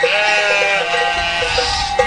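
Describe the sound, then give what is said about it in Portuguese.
Sheep bleating in a high mountain pasture: overlapping, wavering mid-pitched bleats from the flock, loud and continuous throughout. “De repente, nas alturas, uma pausa. Ficamos encantados com as ovelhas.”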